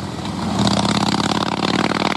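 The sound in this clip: A Harley-Davidson Pan America motorcycle engine revving, a loud throbbing rumble that swells after a moment and holds with a rapid, steady pulsing beat.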